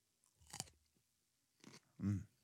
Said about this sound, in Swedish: Vi lyssnar när du äter gurka.